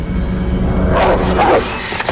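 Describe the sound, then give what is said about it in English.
Dog barking: a black dog emerging from shrubbery beside a playground, two short, deep barks sounding through a steady, loud rumbling noise that continues throughout. “A black dog emerges from the shrubbery, its yellow eyes glowing. It flattens its ears.”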